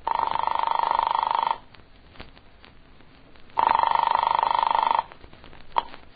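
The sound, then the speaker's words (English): A dial telephone rings in two long, even electronic bursts separated by a pause holding faint clicks, and a single sharp click comes near the end. “I flicked the telephone dial to the number in her note.”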